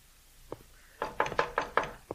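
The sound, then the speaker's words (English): Knuckles knock on a house door: one faint lone tap, then a quick run of several firmer knocks in an uneven rhythm, quiet overall. “Answer the door”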